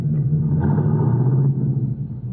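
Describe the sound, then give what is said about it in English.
A car pulls away in first gear as the clutch is let out gently, giving a steady, loud, low engine rumble that shifts slightly in tone partway through. “Now, put it in first. Let the clutch out easy, and you'll roll slowly and smoothly.”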